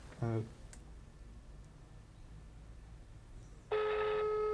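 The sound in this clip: An outgoing telephone call rings unanswered. A faint hiss runs for most of the stretch, then a steady buzzing ringback tone starts near the end and holds to the close.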